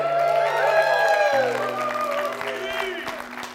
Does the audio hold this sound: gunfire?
no